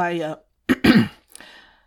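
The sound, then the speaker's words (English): A man clears his throat: a short voiced tone, then two rough, loud bursts, trailing off into a fainter rasp. “Zhao Yunlan cleared his throat”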